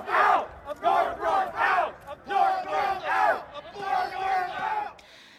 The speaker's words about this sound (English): the sound of Richmond's gun rally attendees on Monday demanding an end to Governor Ralph Northam's tenure.